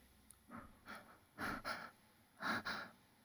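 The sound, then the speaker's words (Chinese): Heavy panting breaths from a boy gasping for air just after a stocking is ripped from his face: about six harsh breaths, two softer ones first, then two louder pairs in quick succession, with no talk. “呼呼的喘着热气”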